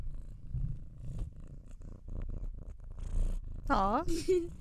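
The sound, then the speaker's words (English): A pet cat purring, a low, steady rumbling throb that continues throughout, mixed with some faint rustling and handling noises. “If you guys can hear the purring, that is actually my cat.”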